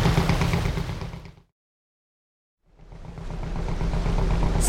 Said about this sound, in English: See that small steamship bearing down on us? It's a customs cruiser. They'll have the gear to find old Bill Summers' barge. And they're fast enough to catch it.